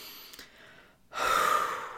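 A single loud, audible breath out taken to calm down and ease anxiety: a breathy rush of air lasting about a second after a quiet, faint stretch, with no talking.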